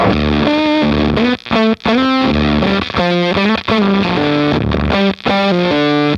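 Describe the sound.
Electric guitar played through a Small Sound, Big Sound effects pedal, heavily distorted and thickly layered, rings out loud and sustained in chord stabs with a few brief dropouts between phrases.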